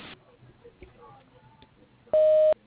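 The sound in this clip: A voicemail greeting beep sounds on a phone line: one loud, steady electronic tone of about half a second near the end, preceded by faint, low line noise and a few small clicks.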